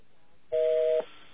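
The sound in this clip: A telephone number is dialed automatically, giving a single steady dual-tone beep about half a second long that stands out alone against faint background hiss.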